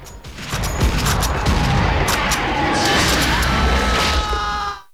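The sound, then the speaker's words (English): Repeated loud shots from a pump-action gun fired at attacking bugs in a battle, fast blasts running together with dense crashing and booming noise throughout. “He shoots it with a pump-action gun. Then another bug. He shoots, and he shoots, and he shoots.”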